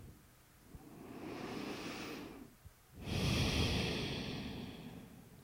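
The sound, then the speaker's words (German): Deep breathing during a guided meditation: a slow, hushed inhale swells gently, followed after a short pause by a fuller, louder exhale that fades out gradually. “Atme tief ein und aus und all das, was sich gerade in deinem Leben bewegt.”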